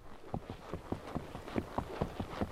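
Horse hooves clop steadily up a forest trail through pine and oyamel fir in the high mountains of central Mexico, with many sharp, evenly spaced hoofbeats at a moderate level over a soft background.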